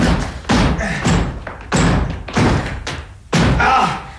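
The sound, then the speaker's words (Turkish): Heavy, repeated thuds and slams as someone forces a door to break it down. Loud booming blows land at an uneven pace, roughly half a second to a second apart, each one ringing briefly before the next. “Sanırım kapıyı kırmamız gerekli.”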